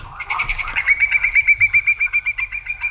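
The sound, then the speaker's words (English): A Hudsonian whimbrel calls, starting with a brief rising note and breaking into a rapid run of many clear, high, evenly spaced whistles, loud and alone. “That is the call of a whimbrel,”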